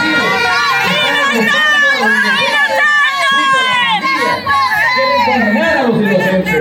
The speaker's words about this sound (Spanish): Lo que ustedes están escuchando ahorita son los gritos de muchas madres que han salido a manifestarse